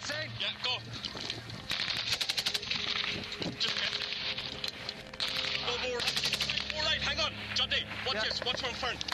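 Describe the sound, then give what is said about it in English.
Machine-gun fire in a 2010 gun battle between the British Army and the Taliban, with soldiers pinned behind a compound wall: long, dense bursts of sharp rapid cracks that run almost continuously, with voices heard amid the shooting. “The British Army are involved in a gun battle with the Taliban.”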